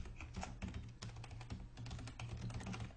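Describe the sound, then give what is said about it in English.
Quiet, rapid clicking of many keystrokes as a URL is typed on a computer keyboard into a link text box in Fireworks software, steady with no talk. “In there, you just type your URL.”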